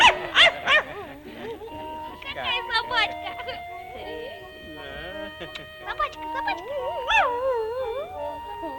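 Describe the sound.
A white poodle gives a series of high, wavering yips, whines and howl-like cries with strongly bending pitch, with quick clusters of short yelps at the start and again near the end.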